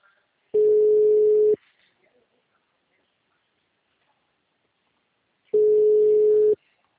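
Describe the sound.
Telephone ringback tone on a call: two steady, mid-pitched buzzing tones, each about one second long, separated by a long silent gap.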